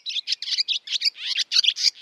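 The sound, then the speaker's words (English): Bright, high-pitched bird song: a quick, unbroken string of chirps and twittering trills, heard alone. “So why not draw the best attention to that by just putting out pure bird song?”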